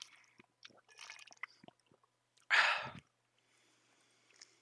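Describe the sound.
A speaker drinks water: faint mouth clicks and small liquid sounds, then one short, louder sip-like gulp, followed by near silence.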